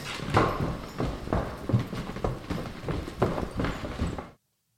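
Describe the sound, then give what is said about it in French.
Quick footsteps of people running patter in a steady, even rhythm, many firm strikes in a row with no pauses, holding at a moderate level before stopping abruptly. “Alors, on devrait courir. Allez, cours,”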